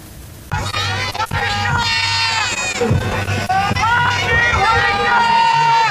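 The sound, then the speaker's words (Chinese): A stadium crowd cheers and shouts at a football friendly in Putian, where the home side plays a young Argentine team of Fujianese descent. The roar of many voices is loud and continuous, with high shouting throughout. “看台上，欢迎回家，欢迎回家的助威声此起彼伏，饱含家乡人民对海外侨胞的热忱，浓厚乡情扑面而来。”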